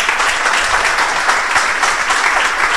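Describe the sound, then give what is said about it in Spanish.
Loud applause and an ovation from the audience at a cultural event, a dense, unbroken roar of many hands clapping at an even intensity from start to finish. “todo acabó pues evidentemente con un fuerte aplauso y con una ovación”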